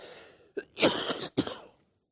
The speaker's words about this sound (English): I'm going to try not to cough all the way through this.